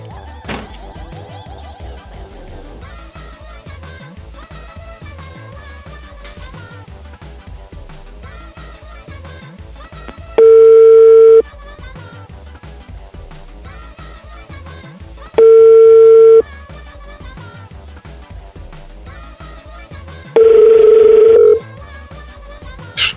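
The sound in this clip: A phone line gives a ringback tone on an outgoing call, sounding as three long, steady, mid-pitched beeps spaced roughly five seconds apart. Each beep stands out clearly over quieter music playing underneath.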